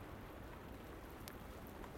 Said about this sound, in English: All this wind and rain, but as I said, it's so mild.